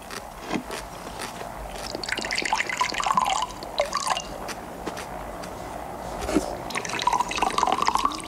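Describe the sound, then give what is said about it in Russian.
Liquid pours into a glass as a drink is refilled, heard as a few soft trickling, splashing bursts over low background noise, with no talking. “Делает знак лейтенанту, тот снова наливает.”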